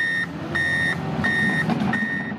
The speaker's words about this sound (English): If you drive east in Estero, you can't miss the road work happening on Corkscrew Road.